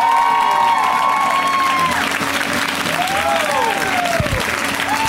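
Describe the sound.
Loud audience applause and cheering welcome a comedian onto a show, a thick steady roar of clapping with whoops and whistles rising above it throughout.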